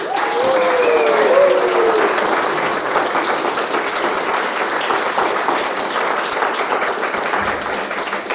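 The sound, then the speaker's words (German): Live audience at a talk event making noise and clapping, a loud, dense burst of applause that carries on steadily with no break. “Das heißt, wenn es irgendwelche Geräusche im Hintergrund gibt, wenn jemand klatscht, lacht, sich beschwert, genau, transparent sind wir heute ganz besonders. Deswegen macht doch noch einmal Lärm für die Zuhörer, die dabei sind.”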